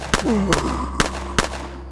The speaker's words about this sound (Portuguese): De pronto, saquei minha humilde arma, descarregando toda a munição no horrendo monstro.